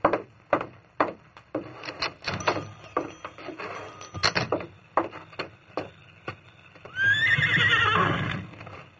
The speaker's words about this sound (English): Then he mounted. Easy, steady, big fella. Come on, Silver!